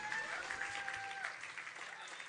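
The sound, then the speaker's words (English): Applause from a church audience at a Sunday service, clapping for the worship band: dense, steady clapping runs through the whole stretch, tapering slightly at the very end. “Can we give it up for the band today?”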